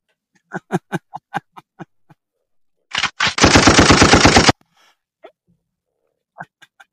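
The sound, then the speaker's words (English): Machine gun fire rattles in one rapid, loud burst lasting just over a second, with scattered short sharp pops before and after it. “So, I was wondering if you're going to catch the machine gun.”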